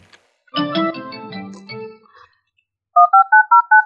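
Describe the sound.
Telephone keypad dialing tones sound as a quick, even series of short, clear beeps, each a bright paired tone, following a stretch of other sound.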